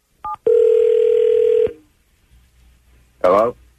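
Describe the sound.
A telephone call being dialed: two short keypad tones, then one long, steady ringing tone, a pause of near silence and a brief voice answering at the end.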